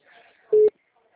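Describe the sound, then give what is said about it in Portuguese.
A single short, steady mid-pitched ringing tone from an outgoing telephone call, loud and clear, preceded by a faint murmur. “Ah, agora tá chamando.”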